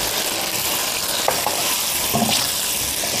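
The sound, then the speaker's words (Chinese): Steady sizzling of a stir-fry as soy sauce, oyster sauce, sugar and chicken bouillon are tossed in the hot pan, with a few sharper stirring scrapes over the continuous hiss and no voices. “少量的生抽，少量的蚝油，翻炒一下，再加入少量的糖以及鸡精。”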